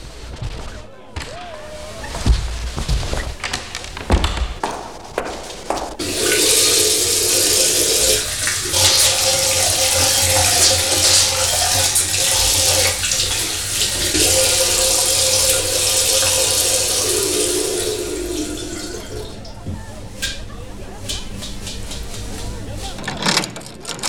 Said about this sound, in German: darf ich mir mal die Hände waschen? Nebenan ist ein Badezimmer.